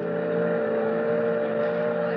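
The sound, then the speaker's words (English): Engine of an excursion boat heading out to the Statue of Liberty, a steady, even drone with a strong low hum and constant tone, heard alone without talk. “Gee, it's nice riding out on the boat, ain't it”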